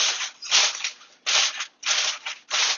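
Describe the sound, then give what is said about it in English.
Aluminium foil crinkles and rustles as it is wrapped over short ribs, with several loud, bright crackling bursts separated by brief pauses and no talk. “Got our foil on, we're almost there. Just maybe one or two more pieces to ensure that it's completely covered.”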